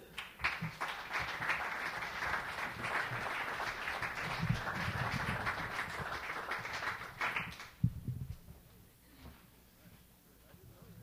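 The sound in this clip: Dense audience applause welcomes a reader at an evening reading event, a steady, loud wash of clapping for about seven seconds before it drops away and a voice begins to speak.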